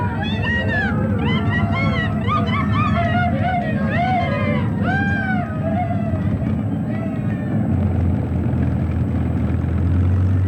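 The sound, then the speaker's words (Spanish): A small airplane engine drones in a low, continuous hum beneath a burst of excited, shouting voices that fades toward the end. “el pequeño avión de Jeremías que se iba contra ellos. ¡Un avión!”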